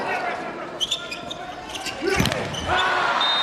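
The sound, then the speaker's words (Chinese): The Japanese volleyball team serves: a sharp hit on the ball sounds midway through, surrounded by steady crowd noise and voices. “日本队发球，”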